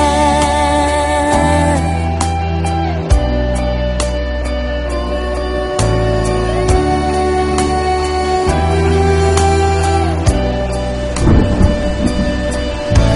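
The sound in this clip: Heavy thunderstorm rain falling in a steady, loud, dense hiss, with deep rumbling thunder underneath throughout.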